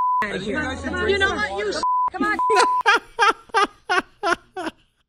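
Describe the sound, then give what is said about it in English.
A phone gives steady, high beep tones broken up by talk. Then a voice imitates the sound with about six short, evenly spaced beeps. “I like how it has a couple second span where it's just beeps. It's the you beep, the beep, beep.”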